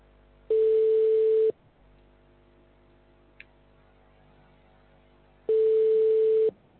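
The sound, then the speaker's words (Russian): Telephone busy tone on a phone line: two long, steady mid-pitched beeps of about a second each, separated by a long silent gap, with no voices. “Абонент разговаривает по другой линии. Please hold on for answer or call back later. The number is busy.”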